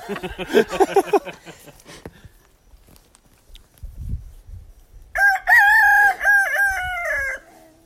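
Backyard chickens cluck in a quick, dense flurry, then after a quieter stretch a rooster lets out one loud, drawn-out crow with several stepped notes.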